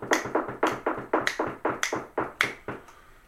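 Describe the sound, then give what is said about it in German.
Knuckles rapping on a table in academic applause: a brisk, evenly spaced run of many sharp, quiet knocks with nothing else, trailing off slightly at the end. “Ich würde akademisch klopfen, aber das stört unsere Hörer wieder. Aber wir können ja akademisch irgendwo hinklopfen.”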